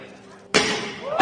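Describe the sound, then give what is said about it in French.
A sudden sharp crash as a thrown pétanque ball strikes an armored glass window, followed by a loud, noisy burst that lingers, with voices heard around it. “Pour ça, il avait demandé à l'un de ses collaborateurs de lancer une boule de pétanque sur la vitre, mais ça ne s'est pas vraiment passé prévu.”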